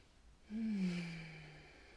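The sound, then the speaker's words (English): A single deep breath is released as a soft, voiced, sigh-like exhale whose pitch sags slightly as it trails off. It is faint and heard alone. “I'm just going to take a deep breath after that.”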